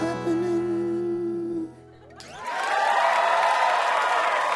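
Audience applause and cheering for a VIP guest at a live event: sustained musical tones fade out, and then loud clapping and crowd cheers swell up and continue strongly.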